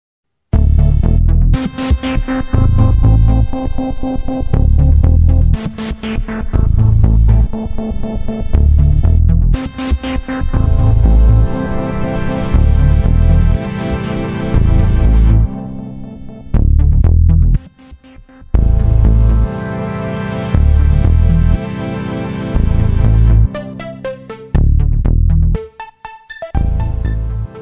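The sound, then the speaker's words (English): A synthesizer demo track from the Waldorf Largo plays alone: loud, dense layered tones and chords with several sharp attacks, sustained stretches and a few brief drops near the end. “That is the sound of the Waldorf Largo, which actually, incidentally, is quite hard to find a demo track from them, too.”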